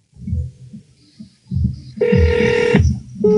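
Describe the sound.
A telephone ringing tone sounds on a call placed to Italy: a steady, bright electronic tone that holds for under a second, pauses briefly, then starts again, over low, muffled thumping.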